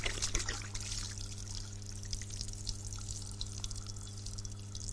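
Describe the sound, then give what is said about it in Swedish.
Water pouring out of a bottle that has been spun, a continuous hissing, splashing rush that stays steady throughout over a constant low hum. “La oss prøve å spinne, så tar vi tre. Klar en gang til. Klar, ferdig, gå.”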